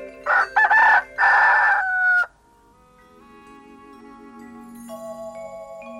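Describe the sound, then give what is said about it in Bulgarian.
Roosters crow at first light, with a couple of loud, drawn-out crowing calls early on. These give way to a quieter stretch of soft, sustained tonal calls. “Първи петли пропяха”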